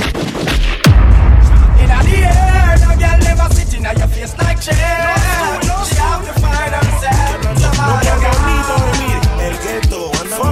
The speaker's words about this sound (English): So could I hear some gunshot, gunshot, gunshot?